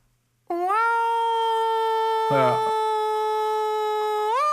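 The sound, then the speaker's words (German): A voice imitates a New York fire engine siren, a sustained tonal wail that rises at the start, holds a steady pitch with a brief wobble midway, then climbs again at the end. “dann mache ich dieses Geräusch auch immer, diese Ladders oder Engines in New York, die ja einfach nur mit, ich weiß nicht, ob das so ein Rad ist, das sich dreht, aber du hörst ja einfach nur dieses”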